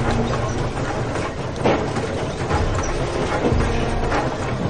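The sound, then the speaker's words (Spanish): A train carrying soldiers rolls along the track as it approaches, a dense, steady rumble with faint rhythmic clatter running throughout. “Mientras, un tren se acerca por la vía.”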